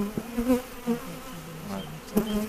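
Honeybees buzz steadily around five hives set at the far end of a Paris park garden, shaded by lime trees. The low droning hum swells and fades as individual bees pass close, with a few louder buzzing peaks.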